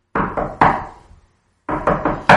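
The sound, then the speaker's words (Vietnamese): Knocking on a door: firm, insistent raps in two bursts of several knocks each, separated by a short pause, with no voices. “Tiếng gõ cửa đáng sợ đó lại giống như ác quỷ đòi mạng, không ngừng quấy rầy cô.”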